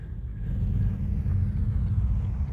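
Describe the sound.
A bus engine rumbles low and steady the whole time, a dense continuous drone with no breaks, as the bus reaches level ground near a village.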